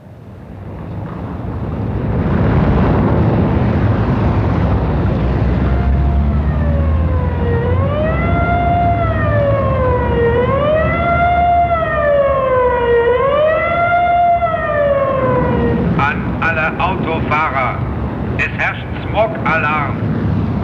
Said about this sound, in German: Stoppen Sie die Motoren! Ich wiederhole, es herrscht Smog-Alarm.